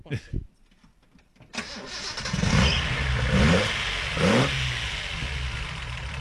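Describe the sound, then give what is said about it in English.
A Datsun race car engine cranks briefly, then fires up and settles into a loud idle, broken by a few rising revs that swell and fall away. “There it is. The unmistakable sound of a Datsun.”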